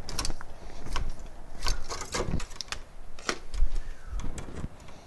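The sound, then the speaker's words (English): Twisting and tightening bare ground wires together while wiring a 4-way switch box produces a steady run of many sharp metallic clicks, scrapes and ratcheting ticks at an irregular rhythm, moderately loud throughout. “I'm going to twist these grounds together, tighten it,”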